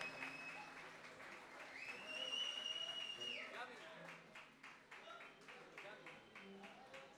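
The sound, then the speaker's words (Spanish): Applause from the crowd at a Bob Marley 70th-anniversary tribute concert: a quiet, continuous patter of clapping with a man's voice talking over it throughout. “Fuerte el aplauso.”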